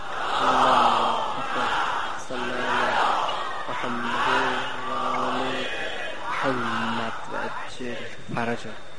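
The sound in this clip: A crowd recites salawat aloud in unison, many voices chanting repeated phrases in loud rhythmic bursts with short pauses between them.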